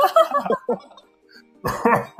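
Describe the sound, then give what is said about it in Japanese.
A person coughs and splutters after choking, a short rough burst that comes between stretches of casual conversation. “ちょっと咳が出てしまった ちょっとむせちゃった”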